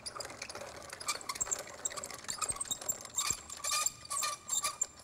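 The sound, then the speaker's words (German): A small mill grinds a sample of damp wheat for moisture testing, giving an uneven, gritty whirring and rattling grind that pulses in bursts of varying loudness. “Und der kommt jetzt da in die Mühle. Der wird ein bisschen gemahlen.”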